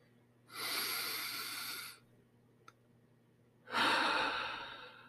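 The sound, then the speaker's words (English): Two long, deep breaths, each a broad, airy rush lasting over a second, separated by a quiet pause with a faint click between them, with no talk. “Even now, I was feeling myself being short of breath. It really is incredible what just a few deep breaths can really do.”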